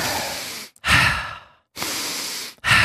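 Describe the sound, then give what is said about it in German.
Slow breaths during a breathing exercise, alternating full inhales and exhales through the airway with brief pauses between, a steady loud airy rush repeated about four times. “Nein, du machst 5 Atemzüge. Ein Atemzug ist immer ein Ein- und ein Ausatmen.”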